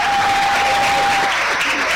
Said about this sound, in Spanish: pues sí, se han ganado el aplauso del público y este instrumento.